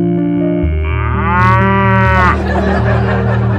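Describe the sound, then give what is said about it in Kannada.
A buffalo gives one long, drawn-out moo whose harmonic call bends upward and then falls away, loud over a steady musical backing that continues after the call ends. “ಆ ಎಮ್ಮೆ”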